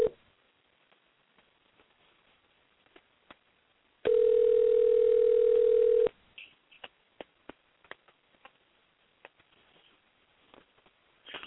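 A telephone ringback tone as a call goes out to a phone-in caller: one steady two-second ring with a thin, narrowband telephone quality, surrounded by faint scattered clicks on an otherwise quiet line.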